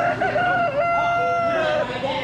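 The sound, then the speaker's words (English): A rooster crowing in a crowing contest at a Missouri state fair, one long, strained, wavering call that holds for about two seconds at a steady, moderate loudness. “And don't miss the rooster crowing contest. Here's one of the contestants.”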